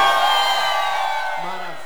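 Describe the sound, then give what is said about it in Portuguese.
A crowd shouting and cheering at a live music show, with loud, steady whoops and calls over a dense wash of voices that fades slightly toward the end. “bateu o grito da galera aí”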